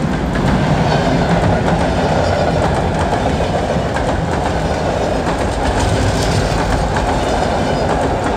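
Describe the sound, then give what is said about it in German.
An express train passes with a loud, continuous rumble of rail transport and a rapid clickety-clack of wheels over the tracks, holding steady throughout. “Der D-Zug! Der D-Zug!”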